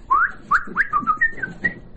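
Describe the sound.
A man whistles a quick run of short, clear notes that rise and warble, each brief phrase separated by small gaps, with no talking over it.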